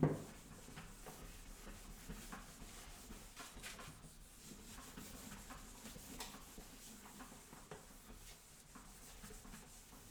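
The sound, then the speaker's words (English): An eraser rubs writing off a board with a soft, continuous scratchy friction made of small irregular strokes. The sound stays faint throughout and no one talks. “I'm going to erase this really quick. So hold on 1 second.”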